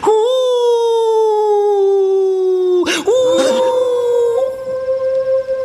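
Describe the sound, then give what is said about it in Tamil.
A dog howls far off in one long, mournful, tonal wail whose pitch sinks slowly. It breaks off briefly midway, then resumes slightly higher and wavers before trailing off. “எப்படி? தூரத்துல ஒரு நாய்”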